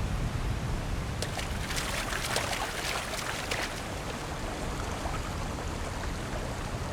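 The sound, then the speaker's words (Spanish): Someone swimming sets off splashing water, a continuous churning wash broken by brighter splashes that bunch together in the first half before settling into a softer, steady slosh. “¡Lo logramos! Fue una buena nadada, ¿no crees, compañero?”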